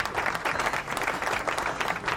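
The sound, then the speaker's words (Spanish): Applause with dense, steady clapping from a group of people, moderately loud and even from start to finish with no pauses. “Aplauso para Alejo.”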